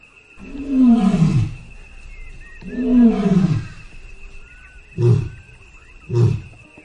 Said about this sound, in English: And it comes from an animal that's intertwined with human history, Panthera leo.